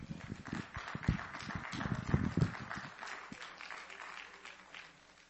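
An audience applauds to welcome a performer to the stage at a religious gathering. Dense, fairly loud clapping runs for about three seconds, then fades into quiet.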